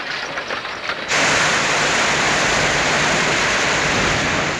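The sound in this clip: Water spurting hard from a wagon onto police officers: a low murmur gives way, after about a second, to a sudden loud hissing rush that holds steady to the end.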